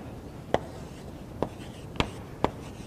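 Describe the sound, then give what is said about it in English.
Writing on a board: four short, crisp scratchy strokes at irregular intervals, each a quick sharp tap above a faint steady hiss, with no voice over them. “And I got to write down treasure here, so that's not a blank.”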